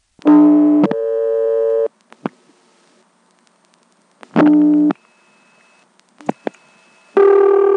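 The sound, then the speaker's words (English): An old telephone line sounds while directory assistance, 102, is dialed: a few sustained buzzy beeps, each held for about a second, broken by sharp clicks and short gaps of silence. “For assistance, it says dial 0. And for directory assistance, it says dial 102. Let's dial 102, see how that works.”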